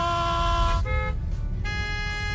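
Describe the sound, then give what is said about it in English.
Car horns honk in street traffic, a loud sustained steady horn blast that breaks off briefly near the middle and then resumes, held over a low rumble of passing vehicles. “Why is everyone honking at us?”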